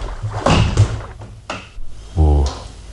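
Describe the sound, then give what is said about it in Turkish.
A door is opened in a radio drama, with a few sharp clunks and thuds and a short, low voiced sound near the end. “Kapıyı size memnuniyetle açıyorum.”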